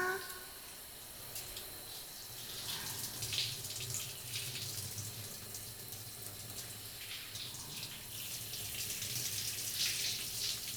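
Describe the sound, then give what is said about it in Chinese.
Water runs from a shower at a comfortable temperature for rinsing, a steady, fairly faint hiss and splash that holds evenly throughout with small surges. “水温差不多了，来，要冲啦！”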